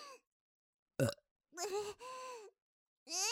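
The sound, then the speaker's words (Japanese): Throaty burps outdoors, several separate bursts: a short one, then longer, tonal belches with a rough, rumbling edge, fairly loud against silence between them. “なんでゲップなんか、私ったらお外で。”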